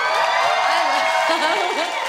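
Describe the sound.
Audience cheering and whooping as a guest is welcomed to a studio stage: a dense, steady roar with high shouts and whoops riding on top.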